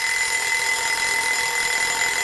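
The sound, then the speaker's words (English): An alarm clock rings steadily for the whole stretch, a bright, continuous metallic ringing at an even loudness with no pauses and no voices. “So that's what that little alarm clock is about.”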